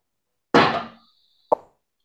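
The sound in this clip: Two sharp gunshot bangs from someone shooting at a firing range ring out about a second apart, the first with a longer, rumbling decay and the second shorter, with silence around them.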